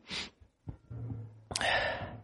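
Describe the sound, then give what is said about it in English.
A deep breath during a guided chanting meditation: a short airy inhale at the start, a quieter low tone after it, then a longer, louder breathy rush of air near the end. “Take a deep breath.”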